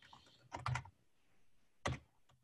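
Quiet typing on a computer keyboard: a short cluster of quick key presses, a pause, then a single firmer keystroke, all faint and alone.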